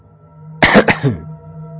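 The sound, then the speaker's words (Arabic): A man coughs twice in quick succession as he enters a house. The harsh, throaty bursts are loud and close together, followed by a short raspy tail, with no speech. “كحيت وانا داخل وقلت السلام عليكم.”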